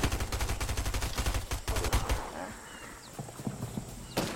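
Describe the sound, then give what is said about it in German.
Rapid gunfire in the video game Fortnite, a dense run of many sharp shots for about two seconds before thinning into quieter scattered cracks. “Ich gehe jetzt pushen. Oh, fuck. Mich wird geschossen.”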